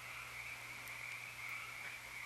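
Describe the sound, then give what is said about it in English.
A chorus of frogs croaks at night at a meditation retreat, a steady, dense, high-pitched trilling that holds at an even level throughout with no talk over it. “that may be hearing the chorus of the frogs. That beautiful sound,”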